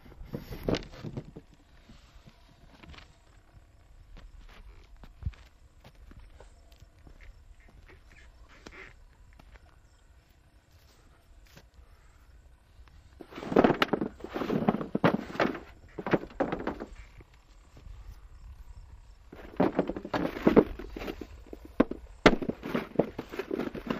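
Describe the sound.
Potatoes being spread out by hand, a dry clattering tumble in two loud bursts of many knocks and rolls, after a long quiet stretch with only faint scattered taps.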